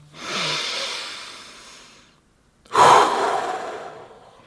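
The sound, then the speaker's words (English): Deep breathing in a guided relaxation exercise: one long breath drawn through the nose into the lower belly, a short pause, then a stronger, airy exhale that trails off slowly, with no talk. “Inhale deeply into your lower belly, then exhale.”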